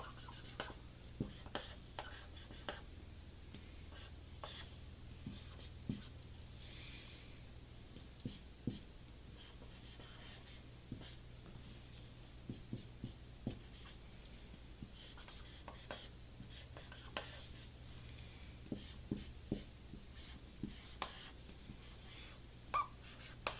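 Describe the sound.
Pen drawing on paper while a simple fuzz pedal transistor circuit is sketched: many faint, short scratchy strokes and light rubbing come in an irregular, steady stream over quiet background hiss.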